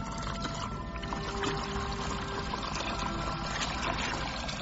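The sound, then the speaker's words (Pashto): River water washes steadily as someone swims in it, a dense, continuous rushing sound at an even level with no distinct splashes. “سیند ته ورسېدې سیند ته ورکوزې شوې او پکې یې ولامبل”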